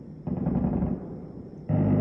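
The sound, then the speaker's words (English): Machine gun fire near midnight outside a home off the Yellow River, at least two kinds: a dense, continuous rumbling rattle with no clear separate shots, growing louder and fuller near the end. “That's at least two different kinds of machine gun fire. It's 11:55. Almost midnight last night.”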